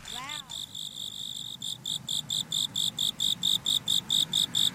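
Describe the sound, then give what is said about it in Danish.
Grasshoppers chirping at night under a full moon, a high, even trill pulsing in many regular bursts that grow steadier and louder over a low, soft background hiss. “Jeg kan rigtig høre græshopperne, de bipper der. Så det må være nattime med full moon.”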